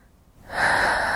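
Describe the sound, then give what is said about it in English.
A big, deep breath is drawn in, starting quietly and swelling into a loud, airy, rasping inhalation that holds to the end, heard alone. “Big deep breath.”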